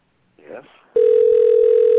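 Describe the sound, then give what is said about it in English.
A telephone dial tone hums on a line opened for a live radio call-in: one steady, mid-pitched, loud tone that runs unbroken to the end, after a brief murmured voice sound. “Okay, so I'm dialing Suzanne now.”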